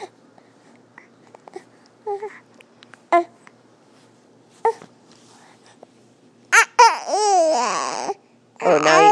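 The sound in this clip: A baby fusses with scattered small sounds and short vocal bursts that give way to longer, louder whiny cries with a wavering, shifting pitch near the end.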